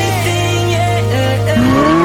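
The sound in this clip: A car driving fast with tires squealing: a loud, steady engine drone with high whining tones, rising in pitch near the end.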